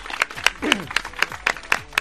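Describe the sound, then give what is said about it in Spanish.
A group claps for a champion, making eight sharp, evenly spaced claps in a steady rhythm, with a brief voice heard between the early claps. “Un aplauso para él todos,”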